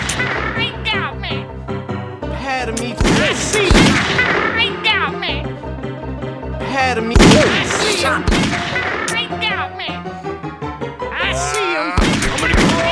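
Gunshots in the video game Grizzly Gulch: a few sharp, loud bangs cut through a steady tonal game background, spread unevenly across the stretch.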